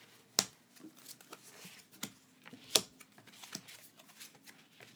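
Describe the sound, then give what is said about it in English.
Five tarot cards are drawn from a deck with soft card slides and faint, scattered clicks, two sharper snaps standing out against a quiet background with no talk. “So I will draw 5 cards.”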